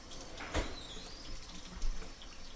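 Water runs from the hot tap of a sink in a faint, steady hiss, with a couple of soft knocks.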